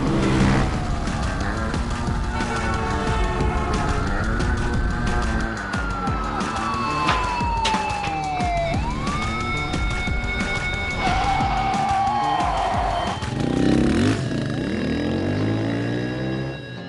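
A car speeds through a chase as police sirens wail in long sweeping rises and falls over a dense, loud, continuous roar of engine and road noise.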